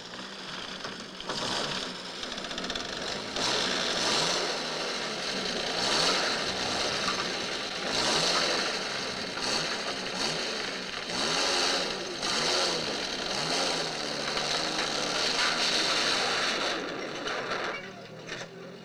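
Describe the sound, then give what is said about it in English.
A vehicle engine strains hard with one wheel stuck on a bridge in a film scene, a continuous loud, rough roar that surges and pulses with grinding noise throughout, without talk. “This is when Serrano and Martinez are trying to cross that bridge, and he gets one of the wheels stuck in the bridge.”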